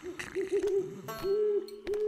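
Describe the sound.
An owl hoots at night: a few soft, low, wavering hoots repeat in a loose rhythm. The calls stay quiet overall.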